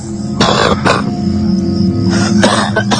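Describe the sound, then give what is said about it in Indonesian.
A man coughs very close by: a few harsh, rough bursts in two clusters, with a quieter gap between them. “suara batuk seorang pria dan itu berada sangat dekat denganku.”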